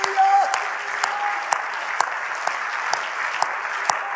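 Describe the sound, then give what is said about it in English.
A church audience claps hands together in a steady, even rhythm. The many sharp, evenly spaced claps continue throughout, with a sung or spoken voice briefly at the start. “Let's all stand and clap our hands for what Jesus did, shall we?”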